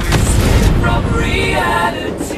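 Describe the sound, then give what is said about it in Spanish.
Explosion sound effect: a loud, heavy low rumbling boom with a broad roar that holds steady, then drops slightly in level near the end. “¡Déjense! ¡Va a explotar! ¡Vamos, vamos!”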